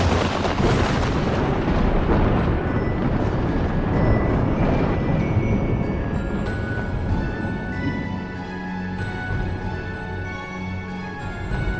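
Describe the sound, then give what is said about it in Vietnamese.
Crashing thunder from a lightning strike in a fantasy battle scene, loud and continuous, with heavy rolling booms and dense rumbling throughout, easing slightly toward the end without letting up. “Luồng sét đánh đùng đùng, ghê rợn đến chói lòa cả mắt.”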